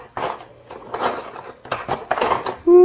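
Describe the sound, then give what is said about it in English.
Cutlery rattling as someone digs through utensils for a little spoon: a few bursts of light metallic clinking and clattering, separated by short pauses. “Get you a little spoon.”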